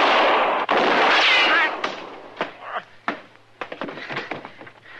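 Gunshots ring out in a radio western drama's gunfight, opening with a loud, sustained blast followed by a few sharp, separate cracks with a lingering echoing tail.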